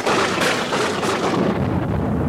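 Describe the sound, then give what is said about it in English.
Thunder crashing during a lightning storm over a drive-in theater, a dense, loud, continuous rumbling roar that holds steady throughout with no voices. “The lightning flickers enough to light up both the sky and the entire drive-in. When the thunder finally crashes,”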